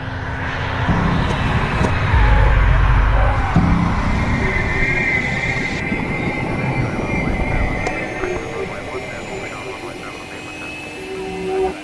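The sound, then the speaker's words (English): Jet engines roar as a passenger jet passes overhead and planes taxi at an airport. The broad, steady rumble swells, then slowly eases, with a voice talking over it. “A view of white clouds and a blue sky as a passenger jet passes overhead. Now speeded up film of planes taxiing in an airport.”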